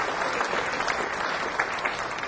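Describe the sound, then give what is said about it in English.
Applause from an audience at an evening arts event, a steady dense wash of clapping hands with no breaks, fairly loud throughout and with no voices over it. “Please give a round of applause for our friends at the Distinctive Hospitality Group.”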